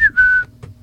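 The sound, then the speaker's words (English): A person whistles an imitation of a bird call: a short note sliding downward, then a longer steady tone, fairly loud over a low background rumble. “Yeah. What is that thing? I don't know. I don't know what bird that is.”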